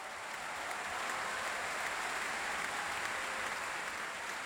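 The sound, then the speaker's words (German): Concert audience applause after a performance of Ravel's Piano Concerto in G major with the Vienna Philharmonic, a steady, dense wash of clapping that stays even and fairly faint from start to finish. “Stürmischer Applaus und große Begeisterung für Lang Lang und die Wiener Philharmoniker unter Tugan Sokiew für ihre Interpretation des Klavierkonzerts in G-Dur von Maurice Ravel.”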